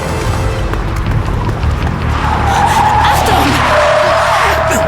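Tires squeal as a recklessly driven car skids, a loud, continuous roar of engine and road noise with a sustained screech that emerges and holds through the second half.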